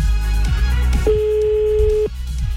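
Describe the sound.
A telephone ringback tone while waiting for someone to answer: a single steady mid-pitched tone lasting about a second, heard over a loud continuous background.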